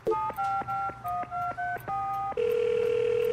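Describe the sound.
A telephone being dialed: seven short keypad tones in a quick, even rhythm, followed by a steady, unbroken tone.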